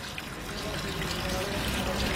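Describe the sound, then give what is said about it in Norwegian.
Water trickling in a fountain, heard as an even, unbroken hiss of running water that holds at a steady level throughout, with no clear voices. “En fontene.”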